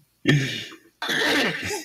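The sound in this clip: A cough during a blooper, one short harsh burst followed by a longer, rougher throaty sound, with no other voices.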